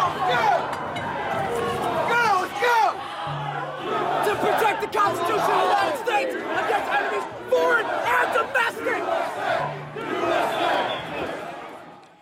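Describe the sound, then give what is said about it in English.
A violent crowd storming the U.S. Capitol shouts and chants: loud, dense overlapping voices with repeated rhythmic chanting, one voice calling out a recitation over the throng. “That was the sound of violence at the U.S. Capitol 1 year ago today.”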